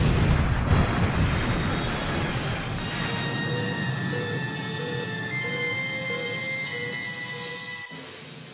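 An explosion, set off when waste beamed into a refuse container meets a fire with fire suppression disabled, bursts loudly at the start and fades into a long, low rumble with faint steady tones above it.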